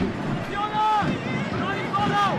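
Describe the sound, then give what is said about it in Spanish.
Raised, shouting voices from the team bench at a football match, carried over a rough, windy background noise in brief calls. “Pueden escuchar los gritos de la banca.”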